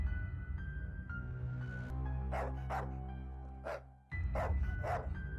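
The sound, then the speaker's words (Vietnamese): A black dog barks in a series of sharp, short yaps over sustained low, steady musical tones, the barks coming in quick pairs separated by a brief gap. “Tiếng chó bất ngờ sủa vang lên”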